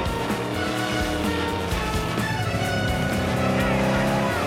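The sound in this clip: A car engine roars loudly and steadily as it speeds off through traffic toward a boatyard, with dense layered tones that hold for the whole stretch without a break.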